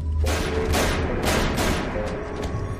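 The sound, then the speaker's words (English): Gunshots ring out in a rapid series of loud, heavy blasts that follow one another closely for nearly three seconds. “But why would he start shooting?”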